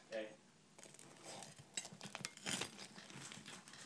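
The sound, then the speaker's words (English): Crisp crackling and crunching as a knife cuts up pastry, with scraping and light clinks of cutlery on a dish. The sound is faint and continuous, with a few sharper crunches, and voices are faintly present. “That's the cutting up pastry noise. It's good pastry on each side.”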